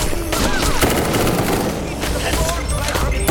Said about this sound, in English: I still have some ammo in my M14. I'll just use it.